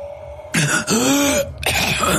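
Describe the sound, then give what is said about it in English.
A man clears his throat loudly in a few raspy, voiced bursts, the middle one longest with a groaning tone, after a brief faint hum at the start. “as he turned to the rider and cleared his throat”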